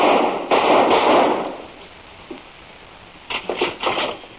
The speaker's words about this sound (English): Kit! I just shot Dr. Scars.